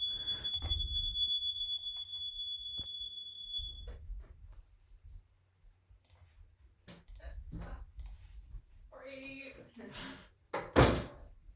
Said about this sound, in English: set off the smoke alarm